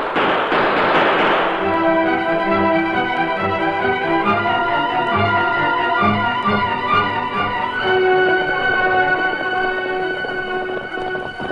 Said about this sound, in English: Gunfight going on. The Indians are pinned down.